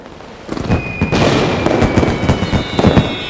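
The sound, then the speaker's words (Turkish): Fireworks go off over a crowded street: many loud bangs and crackling bursts follow one another almost without pause, with a thin, steady whistling tone running through part of the volley. “Kalabalık bir cadde, havai fişekler.”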